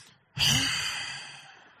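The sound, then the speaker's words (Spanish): A voice imitates the heavy, angry breathing of someone lying in bed beside a partner after a quarrel. It makes one long, forceful, breathy exhale that starts abruptly and slowly fades away. “¿Y se ha dado cuenta cómo suena cuando una pareja está así enojada y ya están acostados? Se respira más fuerte, así.”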